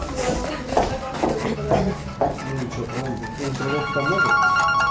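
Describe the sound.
A telephone rings with repeated electronic trills while a person keeps talking over it, the ringing clearly audible beneath the voice.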